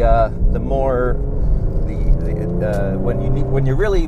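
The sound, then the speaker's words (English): A Porsche 911 engine accelerates, with its exhaust valve opening the second pipe, giving a steady low rumble beneath continuous talk. “when I'm accelerating, they open the second pipe so that you get better exhaust flow.”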